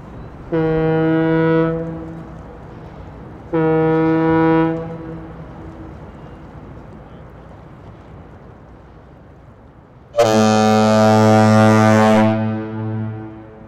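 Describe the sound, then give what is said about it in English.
Bridge foghorns in the Bay Area sound three loud, deep blasts during a test. The first two are short and matching; after a long quiet gap, a longer, lower and richer third blast follows. “we're going to energize our foghorns for a test.”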